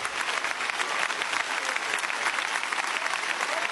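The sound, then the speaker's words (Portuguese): A church audience claps in dense, continuous applause that holds an even loudness throughout, with no pauses. “Palmas para Jesus, palmas para Jesus.”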